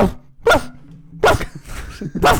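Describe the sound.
A person imitates a dog barking, letting out a few loud, rough bark-like bursts with short gaps between them.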